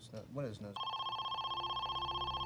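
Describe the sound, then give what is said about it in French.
A telephone rings with a steady, rapidly warbling electronic trill that holds an even level. A brief voice is heard just before the ringing begins. “le téléphone sonna enfin.”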